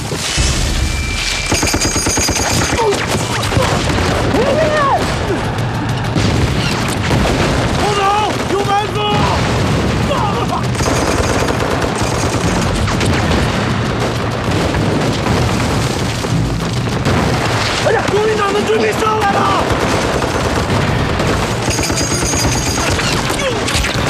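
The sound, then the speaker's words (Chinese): Two heavy machine guns fire in crossfire, one high and one low, in dense, loud, nearly continuous bursts throughout, with voices breaking through at times. “敌人配备了两场重机枪，一上一下交叉火力，把我们的前行路彻底封死了。”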